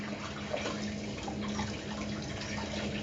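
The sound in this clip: Running tap water as sticky dough is washed off hands, a faint, steady hiss of flowing water without any talk.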